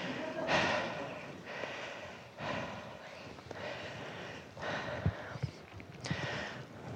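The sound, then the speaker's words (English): A man's breathing is picked up during a sermon: a series of faint, breathy rushes of air, each swelling and fading, spaced about a second or so apart. “you have to listen to me breathe”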